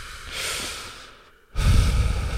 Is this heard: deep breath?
yes